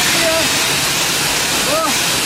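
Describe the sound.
Loud, steady hiss of pressure-washer water spraying at a car wash where people cool off in 41-degree heat, a continuous rushing noise with no breaks.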